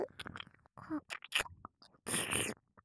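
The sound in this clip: Close, wet chewing and eating sounds come in irregular bursts, some short and clicky, with a longer sustained burst near the end and quiet gaps between.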